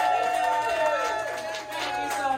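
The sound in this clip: At a live event, an audience cheers and claps for an editor, with a burst of whoops and raised voices over a rush of applause.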